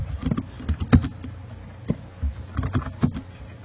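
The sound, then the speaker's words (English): Typing a username on a computer keyboard: a few irregular, clattering keystrokes of uneven loudness, separated by short pauses, over a faint low hum. “But if you type in, you know, Al Gore,”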